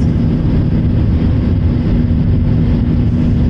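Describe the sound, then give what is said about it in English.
An airplane takes off from Atlanta with a loud, steady engine roar that stays constant throughout, with no talk. “Here I go, taking off from Sweet Home ATL.”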